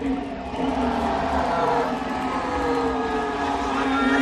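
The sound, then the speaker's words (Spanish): A Ferrari Formula One race car runs on the Fiorano circuit during a first test, with fans gathered nearby. The engine gives a continuous, loud, droning whine with steady tonal lines, and a crowd-like wash sits underneath. “Este es el sonido del Ferrari de Hamilton.”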